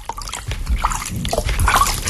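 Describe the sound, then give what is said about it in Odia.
Water filling a pitcher: a steady, continuous trickling and splashing that carries on throughout and grows slightly louder toward the end. “ନିଦ ଭାଙ୍ଗିବା କ୍ଷଣି କଳସୀରେ ଜଳ ଭରା ହେବାର ଶବ୍ଦ ଶୁଭିଲାଣି।”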